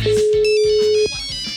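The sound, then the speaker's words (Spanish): A telephone call ringing out, sounding as one steady, level tone that holds for about a second and then cuts off. “Llamando desde el número de la radio, por si acaso”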